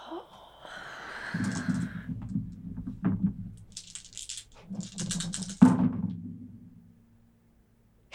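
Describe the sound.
Dice clatter during a tabletop role-playing game, with a few sharp rattling clicks scattered over a faint low murmur.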